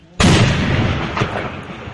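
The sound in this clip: An explosion from a drone-dropped explosive: a sudden loud blast near the start, followed by a long rumbling roar that slowly fades.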